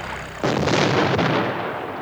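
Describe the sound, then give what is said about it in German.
Gunfire from the ship Duncan: a sudden heavy blast that breaks in sharply and rolls on as a loud, sustained rumbling roar, with a further thud inside it before the roar slowly eases. “Die Duncan! Die Duncan! Sie schießen!”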